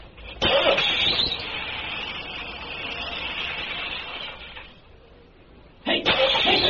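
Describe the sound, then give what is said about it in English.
A hot-wired diesel engine cranked and started after its battery was charged and its fuel filter and injectors were bled. A loud, broad churning roar runs for about four seconds, then fades, and a second strong burst comes near the end. “Battery charged and hooked up. Filter tapped out and bled. Injectors bled off and tight. Got the tools in the back, along with the coveralls and that blanket, all set to hot wire and crank it up.”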